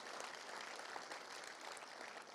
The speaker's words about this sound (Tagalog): Palakpakan po natin ang Panginoon. Come on.